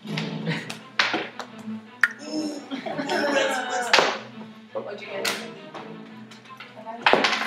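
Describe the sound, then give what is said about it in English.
Dice clatter on a table as players roll initiative in a tabletop game: a few sharp clicks and taps scattered through overlapping talk. “I need everybody to roll initiative. Yay! We just roll.”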